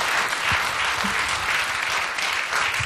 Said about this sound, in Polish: serdecznie pogratulować Darii i wręczyć platynową płytę za debiutancki album Makysz. Ogromne brawa.